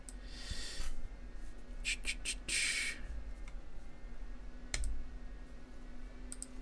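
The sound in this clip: Faint clicking and tapping at a computer, with scattered, irregular mouse clicks and a few short bursts of key taps over a low, steady background hum.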